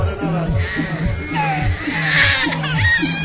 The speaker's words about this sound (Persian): اصلا بچه رو همینجور ببینن گریه میکنه، گریه داره